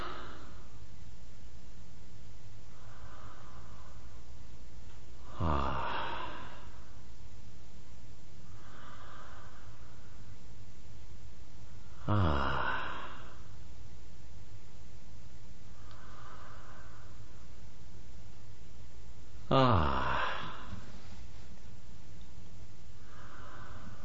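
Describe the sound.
A patient breathes slowly at about nine breaths per minute, with three loud, snorting inhalations spaced roughly seven seconds apart and much fainter, softer breaths in between.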